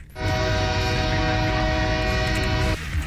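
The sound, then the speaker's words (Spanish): A train heading to Calexico sounds its horn in one long, steady, loud blast of about two and a half seconds over rumbling rail noise, then cuts off abruptly. “A las 6:46, el tren hacia Calexico.”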